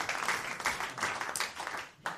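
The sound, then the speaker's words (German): Audience applause in a short uneven burst, a rush of many hands clapping that swells and dips a few times before ending abruptly. “Ich erwarte an dieser Stelle einen Applaus vom Publikum.”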